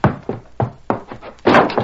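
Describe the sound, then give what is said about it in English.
A house door is burst open amid a run of heavy thuds and knocks: several sharp, evenly spaced hits that build to a broader, louder bang near the end. “He raced up to Watson's house, leaped to the ground, and burst through the door.”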